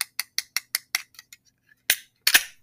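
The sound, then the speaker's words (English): A cold beer can being cracked open: a rapid run of small, sharp clicks, then two louder cracking bursts with a brief hiss, all fairly quiet and with no voices. “Crack a cold one. That didn't even sound like that cracking sound was worth a damn.”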